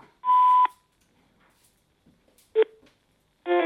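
Electronic beep tones on a Météo France telephone information line. A steady mid-pitched beep is followed after a long silence by a short, sharper tone and then another buzzier tone, all loud and separated by quiet gaps.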